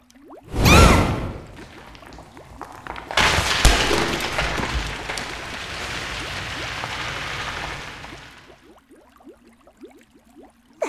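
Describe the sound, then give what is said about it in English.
A magic fireball is thrown: a sharp whooshing burst, then a long roaring rush of noise that holds for several seconds before cutting away to quiet. “That was a powerful fireball you just threw.”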